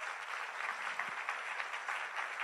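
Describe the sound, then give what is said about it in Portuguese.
Church audience applauding during a worship service, a dense, steady patter of many hands clapping at once, holding an even, moderately quiet level throughout without a break. “Pode aplaudir o Senhor.”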